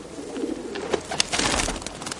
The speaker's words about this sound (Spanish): Abajo un grupo de palomas picotea el suelo.